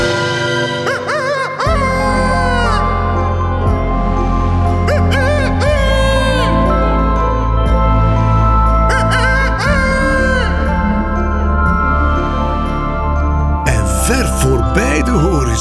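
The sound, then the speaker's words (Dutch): Rooster crowing in drawn-out, wavering calls over sustained instrumental music, several gliding cries that rise and fall against a steady backing. “Kantekleer zoog zich vol lucht, strekte zijn hals. En als een gevederde jachthoorn weer klonk zijn gekraai tot aan de horizon.”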